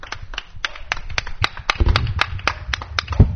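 Hands clapping at a gathering in a steady, even rhythm, many sharp, distinct claps in unison over a low background rumble.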